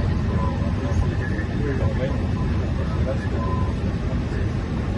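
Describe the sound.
An airplane taking off from Madrid: a steady, broad roar of engine and rushing noise holding at an even level throughout, with indistinct voices mixed in.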